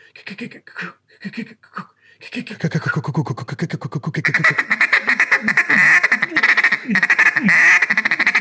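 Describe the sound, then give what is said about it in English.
A blown duck call imitates mallards, combining a feed call with quacks. A rapid ticking feed-call chatter runs first, then a long series of loud, raspy, evenly spaced quacks. A few brief voice-like sounds come at the start. “you can put your feeds and your quack together. That sounds like mallard ducks.”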